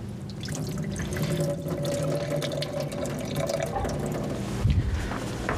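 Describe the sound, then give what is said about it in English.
Water pours and splashes as soaked sultanas are drained for a salad, a steady continuous liquid rush with one brief heavier splash near the end and no talk. “Oh, don't forget the sultanas. We'll just drain those.”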